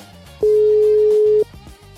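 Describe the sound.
A telephone ringback tone from a call left unanswered: one steady, mid-pitched electronic tone lasting about a second, set against a low murmur of background sound.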